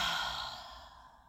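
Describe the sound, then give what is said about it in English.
A slow, deep exhale during a guided breathing exercise: one soft, breathy sigh that starts full and fades away over about a second and a half, with no talking. “Breathe out through your heart.”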